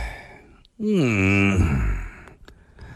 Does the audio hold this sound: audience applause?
no